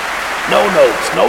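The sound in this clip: Audience applause at a live show for a guest in the crowd, a steady wash of clapping throughout with a voice speaking over it.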